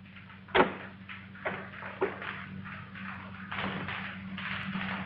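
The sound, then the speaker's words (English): A doorknob turning at a front door: a few brief clicks and soft knocks, the sharpest near the start, over a steady low hum. “The doorknob turns.”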